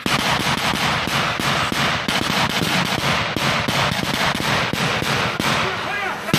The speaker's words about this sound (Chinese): 这是一段非常密集的枪声。